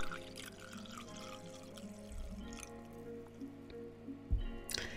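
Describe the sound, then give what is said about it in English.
Coffee trickles and drips into a cup during a public cupping at Crank House Coffee. The liquid sound is steady and soft, with a low tonal hum underneath and a louder splash near the end. “Filling up the cup.”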